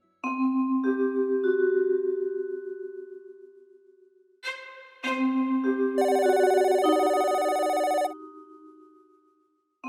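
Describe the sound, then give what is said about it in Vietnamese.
A duty telephone rings at a police station, sounding two long, loud electronic ringing bursts with a short break between them and no other sound. “Tiếng chuông điện thoại trực ban vang lên tại trụ sở cảnh sát.”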